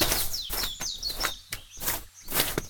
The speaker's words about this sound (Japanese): たくさん小鳥が鳴いてて